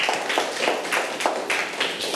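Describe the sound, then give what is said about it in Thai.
Applause in a classroom as students clap for a classmate after a group presentation, a dense, steady patter of many hands with a regular rhythmic pulse running through the whole stretch, fairly loud and without talk. “เก่งมากเลยนะครับปรบมือให้เพื่อนหน่อยครับ”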